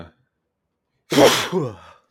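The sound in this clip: A single sneeze, a sharp breathy burst followed by a shorter trailing exhale, heard alone against near silence.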